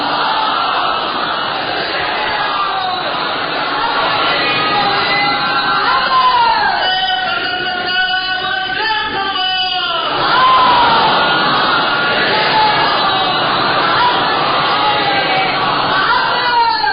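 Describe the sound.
A crowd chants salawat in unison, answering a call at a religious gathering; the massed voices are loud and sustained throughout, swelling slightly toward the end.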